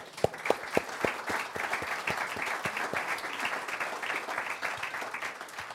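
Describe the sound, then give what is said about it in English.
Audience applause fills the hall at a spoken talk, loud, dense clapping that holds steady for several seconds, with a few sharper individual claps standing out at the start. “And it's about time we stand up and give the Church of Jesus Christ a round of applause.”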